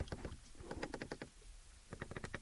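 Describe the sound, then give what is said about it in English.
Clicking of a car's driver seat heating and cooling control buttons: a quick series of sharp, light clicks in two bursts separated by a brief lull. “then the driver's controls for the seat heated and cooling, and then the heated steering wheel. So that sounds like a lot, but it's perfectly sensibly laid out, and when you touch them, they click. I don't know if you can hear that, hang on.”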